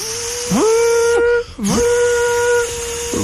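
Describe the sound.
A voice imitates a Minipimer hand blender running, as if whipping cream. It gives a steady, whining, whistle-like tone that swoops up at the start, breaks off briefly midway and then resumes at the same pitch.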